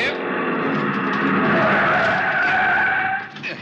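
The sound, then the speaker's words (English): Tires squeal in one long, loud skid as a car's brakes are jammed on, the screech holding steady for about three seconds before dropping off as it comes to a stop against a curb. “The other driver had jammed on his brakes and finally skidded to a stop against the curb.”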